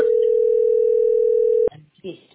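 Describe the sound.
A telephone ringing tone during an outgoing call: one steady, even mid-pitched tone holds for about one and a half seconds, then cuts off abruptly into faint, low voice-like sounds.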